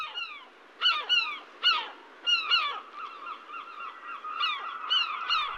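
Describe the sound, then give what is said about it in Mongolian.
Ruddy shelducks honking as they fly off: a series of loud, nasal calls, each sliding downward in pitch, come in irregular clusters and stand alone over a quiet background. “Голын хүмүүн тонголсон хунгалуу гангар гонгор донгдлцэн алас тэртэй нисэн одно.”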